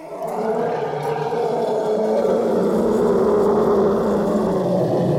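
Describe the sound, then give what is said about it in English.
An elephant roaring: one long, loud, sustained rough roar with a full low-mid tone, heard alone for about five seconds. “That is a roar of an elephant. Stop. An elephant's roar.”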